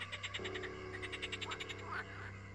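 Frogs croak in a rapid, steady chorus of many pulsed calls, loud and unbroken, with no talk; the frogs are in a graveyard at night.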